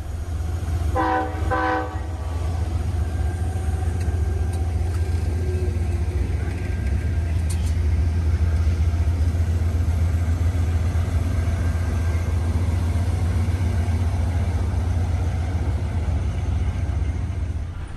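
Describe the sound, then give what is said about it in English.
Heard from on board, a train rattles along rough track at a rapid pace en route to Tampa, a constant loud, low rumble with clattering throughout. A brief horn sounds near the start. “we're going at quite a rapid pace en route to Tampa. And as you can hear, the track probably isn't the best bit of track I've ever travelled on, because everything's rattling away.”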